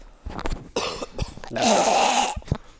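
A person coughs, with a few hoarse bursts and one longer, harsher spell in the middle. The coughs are fairly loud and sound alone, with no talk.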